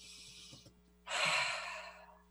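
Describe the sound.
A deep breath drawn in: a loud, airy rush of inhaled air that swells quickly and then slowly tapers off. A softer breathy hiss comes just before it.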